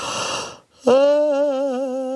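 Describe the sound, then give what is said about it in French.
A person's long voiced yawn at seven in the morning: a breathy, noisy stretch, a brief pause, then a drawn-out tone that swoops up quickly and holds steady with a slight waver, no talk over it. “C'était le troisième bâillement, c'est normal, il est 7:00.”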